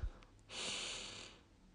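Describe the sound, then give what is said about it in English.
A single slow, deep breath drawn in during a guided meditation, a soft airy hiss lasting about a second, faint and alone. “Now, deep breath in”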